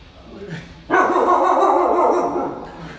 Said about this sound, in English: Sorry. That's my dog.